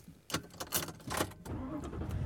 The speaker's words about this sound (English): And I am driving home.